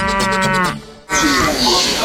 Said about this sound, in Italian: col consueto verso della mucca, con questo muggito